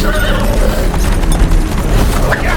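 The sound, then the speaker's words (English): A horse neighs over rapid clip-clopping hooves and a rumbling roll as a horse-drawn carriage races through woods, loud and continuous throughout. “The parson races a horse-drawn carriage through the woods.”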